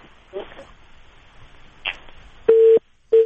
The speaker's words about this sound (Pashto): او دې سره د دوی د ټلیفون لاین کټ شو.